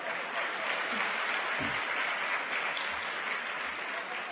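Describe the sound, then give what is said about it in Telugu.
An audience at a youth gathering applauds with a steady, dense clapping that holds at an even loudness throughout. “Claps పడాలి కదా.”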